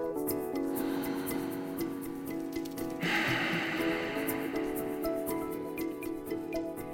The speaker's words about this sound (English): Now take in a deep breath through your nose. Hold it. And then breathe out through your mouth.